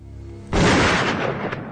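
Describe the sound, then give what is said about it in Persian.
A single loud rifle shot, fired at a man's shoulder, bursts in sharply after a moment of low hum. It rings on and fades slowly over more than a second. “شونه سمت راست فؤاد گلوله میخوره.”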